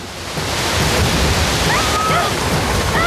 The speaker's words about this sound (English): The giant wall of water charges down the alley and smashes into the skip.